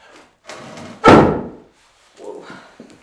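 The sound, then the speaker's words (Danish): A small, light table is moved on the floor: a short scraping drag, a loud heavy thump, then quieter scraping and a few soft knocks. “Jeg prøver at flytte bordet.”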